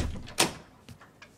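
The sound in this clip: A house door being opened in an apartment building: one sharp click-thump, followed by a couple of fainter knocks and rattles, all quiet.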